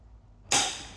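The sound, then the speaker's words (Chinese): A single BB gun shot: one sharp, sudden crack with a short fading hiss after it, fairly faint, with no voices. “请指导老师使用 BB 枪在距离两口 ECM 处发射，一定要戴护目镜。”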